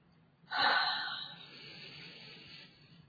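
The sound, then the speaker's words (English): A single deep breath drawn during a guided tapping relaxation session: a breathy rushing hiss that swells suddenly, then fades slowly over about two seconds, with no talking. “Take a deep breath.”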